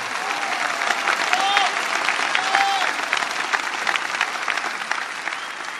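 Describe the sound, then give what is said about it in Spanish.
Crowd applause at a religious festival for a patron saint of the Virgin Mary: dense, steady clapping from many hands, sustained for the whole clip without pause. “celestial patrona de Argentina, un aplauso a la Virgen de Luján. Más fuerte, no siento, más fuerte.”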